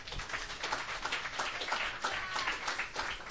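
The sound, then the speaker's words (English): Audience applause at a Sunday night open mic welcoming a young singer-songwriter to the stage, continuous dense clapping at a fairly faint, even level for the whole stretch. “Please put your hands together and give Zach a big, warm welcome to the stage.”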